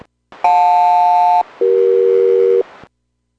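SELCAL selective-calling tone on an aircraft radio during a radio check: two loud, steady pulses of about one second each, each made of paired tones, the second pair lower in pitch, separated by a brief gap over faint radio hiss.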